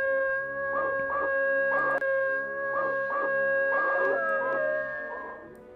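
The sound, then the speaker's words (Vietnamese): A white dog howls repeatedly at night: many wavering, echoing howl-like cries over a steady, processed tonal drone, at a moderate, even loudness. “Bỗng, con chó quay đầu hướng lên cửa sổ của phòng Vân mà tru lên liên hồi dài.”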